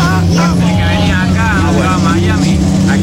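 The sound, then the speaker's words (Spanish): A tractor engine runs with a steady, loud low drone and a rough mechanical hum while people talk over it. “Y hay un tractor allá. ¿No arranca más? ¿Sí? Ahí está acelerando.”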